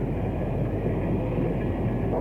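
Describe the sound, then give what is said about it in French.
A busy train station at night with crowds on the platforms and people hurrying for a train: a steady, dense low rumble of rail traffic and crowd noise runs unbroken throughout, with no distinct individual events. “Il fait nuit. La gare est sombre. Il y a du monde sur les quais. Les gens courent pour ne pas rater un train.”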